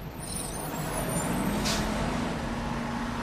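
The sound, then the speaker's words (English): A bus pulling up, its engine rumbling steadily throughout, with a brief hiss of air brakes partway through. “A bus pulls up, with Slimer at the wheel.”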